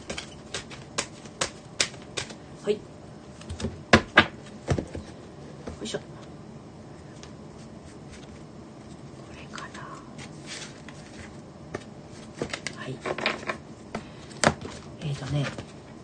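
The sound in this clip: Oracle cards are shuffled during a live card reading, producing many irregular crisp slaps and riffling taps. A few louder bursts cluster together at moments, and faint murmuring voice sounds sit underneath.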